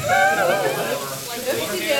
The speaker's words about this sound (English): That's the thing about cooking bacon, is when it shrinks, you get space for more bacon.